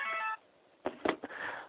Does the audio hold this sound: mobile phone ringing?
yes